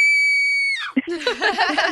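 A woman's high, piercing scream played back from an audio recording holds a steady shrill pitch, then drops away into rougher, broken vocal noise.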